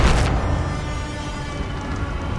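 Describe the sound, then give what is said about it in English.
A sci-fi EMP blast hits a ship: a loud, sharp burst opens the sound, then gives way to a heavy, sustained low rumbling roar that stays strong to the end. “EMP took her out. Took out the whole ship. We're falling.”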